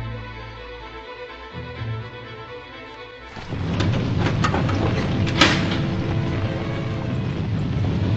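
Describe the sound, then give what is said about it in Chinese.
A hidden mechanism in an ancient building starts up with a sudden shift to a steady, broad rumbling grind that keeps going, with one sharp click partway through. “怎么样？ 机关已经启动了。”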